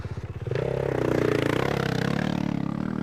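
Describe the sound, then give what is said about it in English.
A motorbike engine throbs at a low pitch as the bike is lifted off the ground after a crash. The rumble grows louder after about half a second, with faint clatter and scraping and no talk. “Let me pick the bike up and you just get on it in a minute.”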